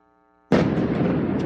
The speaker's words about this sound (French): Des explosions à répétition dans le ciel de Kiev dans la nuit de lundi à mardi.